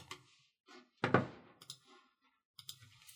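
Computer mouse clicking while navigating a website: several sharp, irregular clicks, one louder and fuller than the rest, separated by quiet gaps.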